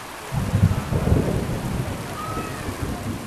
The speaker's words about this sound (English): That's the sound of still more rain falling on the southern African country of Malawi